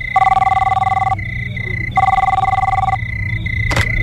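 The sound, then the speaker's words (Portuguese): A telephone ringing for a pre-dawn call: two bursts of trilling electronic ringing, each about a second long and separated by a pause, over a low steady hum, with a short click near the end. “De madrugada, Severina liga para sua sogra.”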